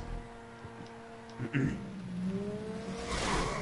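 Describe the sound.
Cars drive and collide in the GTA Online video game, with engine hum, a brief knock partway through and a louder engine rev building toward the end.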